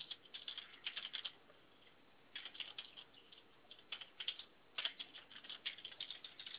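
Typing on a computer keyboard: quiet, rapid bursts of clicking keystrokes separated by short pauses, the taps uneven in rhythm, with no talking.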